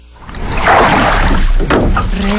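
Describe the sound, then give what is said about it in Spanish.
Oars slosh through water as a boat is rowed. A steady churning splash swells over about two seconds, with no voices. “Rema tu bote. Qué chido se escucha, ¿verdad? Es remando.”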